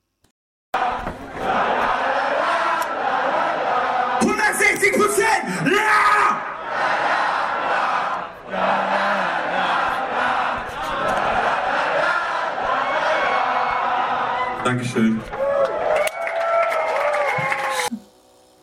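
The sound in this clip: Concert crowd cheers and screams loudly at the end of a song after a brief silent opening, the roar surging and dipping in waves before a performer's short thanks near the end as it fades.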